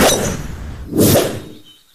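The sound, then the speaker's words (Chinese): A golf club swung to hit a ball: a rushing noise builds into one sharp, bright strike that fades away to quiet. “威廉把球放到掌中张开，杰克挥杆把球打了出去。”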